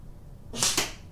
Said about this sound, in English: Ooh, even better. That one looks like it's a hit from here, and it really is in the middle.